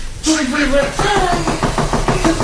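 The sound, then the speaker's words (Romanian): Knocking on a window, a rapid series of many light taps under continuous talk as people speak over it. “Bate cineva. Da, a bătut cineva la geam.”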